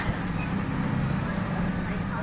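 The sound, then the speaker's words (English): A bus pulling off from a stop, with a low, steady engine rumble and a deep droning hum that stay even in loudness throughout. “We sit here and wait on the bus for quite some time, and then we finally pull off.”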